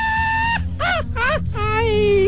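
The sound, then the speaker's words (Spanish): A traditional Mexican grito rings out as a long held cry, then two short arching yelps, then a final long, wavering wail, all over a low, steady background. “supera este grito mexicano”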